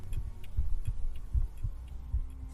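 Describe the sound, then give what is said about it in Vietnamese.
A heartbeat thuds in soft, low lub-dub pairs at a slow, steady pace, faint and alone in near silence. “chỉ có tiếng kim đồng hồ, tiếng thở khẽ khàng, thậm chí Lý còn có thể nghe được nhịp tim của mình”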